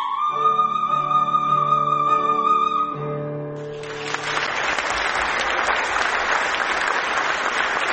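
Warm applause from a concert audience after opera arias sung by a female soprano at a Turkic-language arts concert. A sustained musical note rings first, then dense, steady clapping fills the second half and continues to the end.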